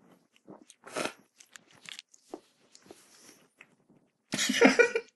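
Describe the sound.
Biting into and chewing a banana cooked in miso soup: scattered soft, wet mouth sounds and small bites with quiet gaps, then a louder, denser burst of chewing near the end.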